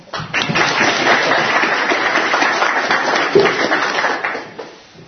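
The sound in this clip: Audience applause at a literary gathering honoring a poet's work: a dense patter of clapping that swells in quickly, holds steady for several seconds, then fades away near the end.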